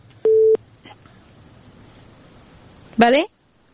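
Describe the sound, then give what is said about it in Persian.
A telephone busy tone after a call is disconnected: one short, steady mid-pitched beep and a faint blip, then quiet line hiss, with a brief brighter burst near the end. “بله تماسشان قطع شد، تماس بعدی رو میگیریم.”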